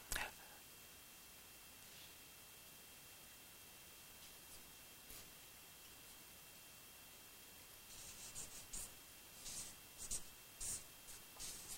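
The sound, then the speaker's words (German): A pen writes on paper in faint, dry scratches. Isolated strokes come early on, then a closer run of short, rasping strokes near the end. “Dann schreibe ich das.”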